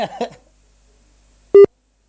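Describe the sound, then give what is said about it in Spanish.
Telephone ringing tone on an outgoing call, a single short, loud, steady beep after a moment of speech, with silence around it. “Vamos a ver si es que está al pendiente del teléfono. Ahí al menos está sonando.”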